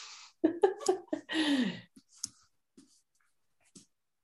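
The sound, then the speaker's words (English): A pen scratches across paper while sketching a brain: a quick run of short, scratchy strokes, then one longer sustained stroke, followed by a few faint, sparse taps and scrapes. “Okay, don't judge my drawing skills. Okay. All right, and here's the brain.”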